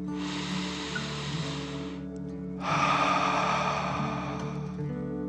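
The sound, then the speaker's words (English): Slow guided breathing during a children's relaxation exercise: one long airy breath in, a short pause, then a longer, slightly louder breath out. Both are hissing and drawn out over a steady low tone. “Remember to breathe slowly like a dragon, in and out.”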